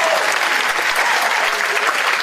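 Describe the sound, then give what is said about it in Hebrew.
Audience applause: dense, steady clapping from a crowd, continuous and fairly loud throughout, with no pauses. “קודם כל כפיים, רבותיי”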